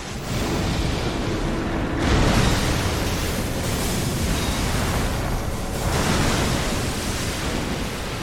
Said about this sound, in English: This arena is made of water that we're kind of walking on, but the Elden Beast is sort of swimming in it while we're walking on it.